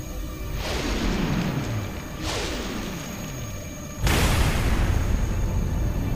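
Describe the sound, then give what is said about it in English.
A launcher fires a powerful energy beam in three loud sci-fi bursts, each a broad whoosh sweeping downward in pitch; the last hits hardest and holds as a dense, roaring rumble. “It emits a powerful bright pink energy beam which hits the Earth.”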